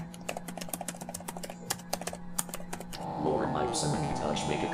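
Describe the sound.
Rapid, irregular key clicks from typing on a Triumph XP typewriter patter for about three seconds, then give way to a denser, louder sustained sound.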